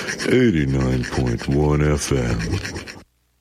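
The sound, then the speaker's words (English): Two drumsticks rubbed together, giving a rasping, scraping friction with squeaky, whining tones that bend up and down in a few strokes, fairly loud, with a voice briefly speaking before it stops abruptly. “That's the sound of two drumsticks rubbing together, only on CHUO”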